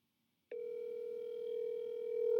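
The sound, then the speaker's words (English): A telephone dial tone sounds while a call is being placed. After about half a second of silence, a steady, continuous tone starts and holds unbroken to the end, growing slightly louder. “Andrew Obera, give him a call”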